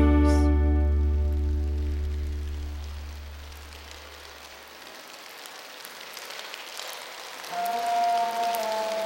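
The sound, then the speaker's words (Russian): Rain starting: a soft, even patter of drops fills in as a low sustained musical drone fades away, and a few clear melodic tones enter near the end. “дождь, прячьтесь, начинается дождь.”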